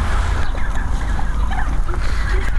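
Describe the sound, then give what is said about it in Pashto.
A flock of turkeys calls noisily while being fed handfuls of corn grain, a dense, continuous clamour of overlapping gobbling cries at fairly even loudness. “فیل مرغانو هم د خوړو په لیدو سره شور جوړ کړي.”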